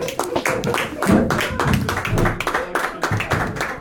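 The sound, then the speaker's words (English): An audience applauding a comedian at a comedy show, dense, steady clapping that runs throughout, with voices mixed into the crowd noise. “Please put your hands together, make him feel very welcome.”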